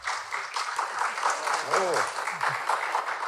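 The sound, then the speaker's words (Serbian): Audience applause at a concert: dense, steady clapping from a crowd, with a voice briefly heard over it. “Schau, du hast nicht einmal noch gespielt und schon bekommst du Applaus. Ein Wahnsinn, dieses Publikum heute Abend.”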